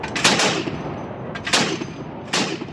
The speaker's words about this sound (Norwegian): Dette er afghanske regjeringssoldater på patrulje. De skyter mot noen i en skråning.